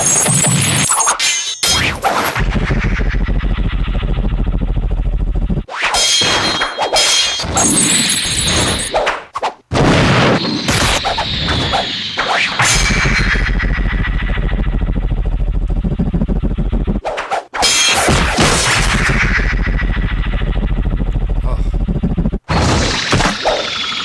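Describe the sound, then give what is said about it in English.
Stylized sound design of water droplets hitting and being slashed: loud, ringing impacts and swooshes with sustained metallic tones, in several long sections broken by brief silences. “Droplet hit. It all happens between water droplets, and we saw when Mira was slashing the droplets how fast they were falling.”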